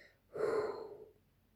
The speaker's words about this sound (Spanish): Exhala todo el aire de tus pulmones.